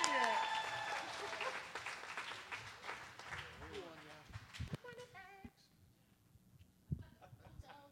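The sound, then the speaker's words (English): Audience applause for a comedian at a comedy show: dense clapping that is loud at the start, then gradually thins and fades as a voice begins talking. “All right, and for Scared Straight, give a round of applause for Ryan McComb.”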